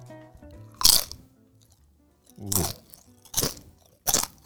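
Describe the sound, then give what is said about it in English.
Biting and chewing a crunchy kettle cooked potato chip: four sharp, crisp crunches, each a short noisy burst, spaced unevenly with quiet gaps between them. “What are they called? Baked? Or like a kettle chip? That's a kettle cooked chip. This is a very specific chip.”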